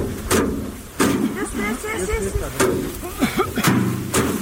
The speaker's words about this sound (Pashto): د کندهار په ډنډ ولسوالۍ کې کروندګر خپل راټول سوي د ریحانو حاصلات ټکوي تر څو ریحان له بوټو جلا کړي.